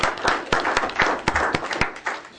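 Audience applause marks the 14th anniversary of the city of Goleta's founding at a council meeting: many sharp, uneven claps over a steady wash of clapping, moderately loud, with no voices.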